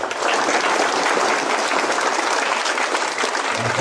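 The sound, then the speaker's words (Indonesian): An audience applauds two speakers at the close of a talk: dense, steady clapping that stays loud and even from start to end, with no gaps. “Dan sebelum kita tutup, kita akan berikan aplaus dulu kepada dua pembicara kita.”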